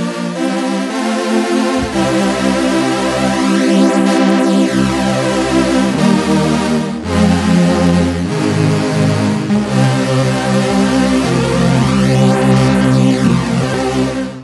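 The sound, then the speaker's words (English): A new string synthesizer patch on a polyphonic engine plays full, sustained chords that shift through several changes, loud and continuous for the whole stretch with no talking. “So that's the sound of the new string synth.”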